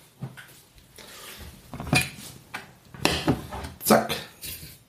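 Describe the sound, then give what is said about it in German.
Half a cup of sugar is poured from a dry cup into a small pot while a white cabbage dish is being made. A few bursts of grainy rattling and clinking of dishes are heard, with no talk. “Also in die trockene Tasse, halbe Tasse voll Zucker. Das füllen wir in unser Töpfchen”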